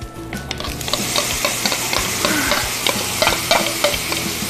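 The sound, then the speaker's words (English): Vegetables sizzle in a little oil in a pan while being stir-fried, a steady crackling hiss broken by many quick clacks and scrapes of the stirring utensil, with no talking. “Then we're going to put this back on the pan, add a little bit of oil. And now we're going to add our vegetables.”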